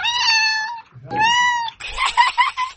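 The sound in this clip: A cat meowing: two clear, drawn-out meows with a steady tone, followed by a rougher, noisier cry, fairly loud and with no talk.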